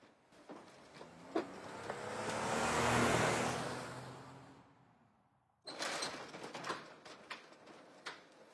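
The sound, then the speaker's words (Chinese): A black Cadillac drives quickly through an iron gate into a hunting park. Its engine swells into a broad rush, then fades away. Fainter scattered sounds follow. “已经到了九点，狩猎场的铁门缓缓打开，一辆黑色的凯迪拉克快速的驶进去。”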